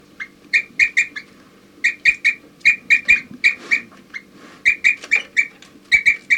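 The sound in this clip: Birds give toop calls: short, clear, mid-high hooting notes in quick groups of three or four, repeated in a steady series with brief gaps between groups, plus occasional faint chirps over a low background rumble.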